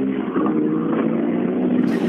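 Roine Björk's rally car drives off on a rally stage: a steady, buzzy engine drone that holds an even level for about two seconds.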